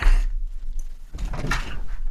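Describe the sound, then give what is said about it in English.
A front door being opened at home, with a few dull thumps and a rattle of the door against a low background hum, with no voices. “I've just got to go get my door.”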